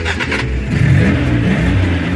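A car engine starting and revving, a steady low rumble with a brief upward sweep in pitch partway through, loud and without voices.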